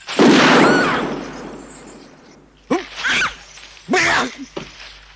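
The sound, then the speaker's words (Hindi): A single loud gunshot is fired at a target, with a sharp onset and a long, decaying tail. Voices then talk in short bursts. “ये आंख बंद करो और दूसरी आंख से निशाना बांधो। अब गोली चला दो।”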